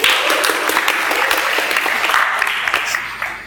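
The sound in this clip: Church audience applause welcomes a reader up for a Bible reading. A full, continuous clatter of many hands runs for a few seconds and eases off slightly at the end.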